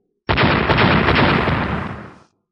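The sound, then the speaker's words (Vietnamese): Huge explosion in a fantasy story as countless souls self-detonate at once: an abrupt, loud roaring blast that keeps rumbling and crackling for about two seconds, then fades out fast into silence. “Hàng triệu hùng phách kia lập tức tự nổ.”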